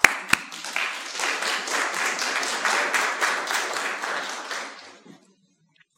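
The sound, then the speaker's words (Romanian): Audience applause during a talk, opening with a sharp single clap before brisk, even clapping builds and holds steady, then thins and fades out around five seconds, leaving silence. “poate să o aplaudăm”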